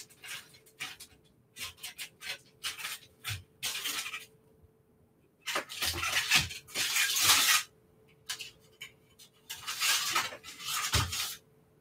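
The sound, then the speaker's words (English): Pumpkin scone dough being unwrapped from its wrapping and cut into shapes produces many irregular bursts of crinkling and rustling with soft scraping, alternating with short pauses. “I'm just gonna unwrap my second one and cut this into shapes as well.”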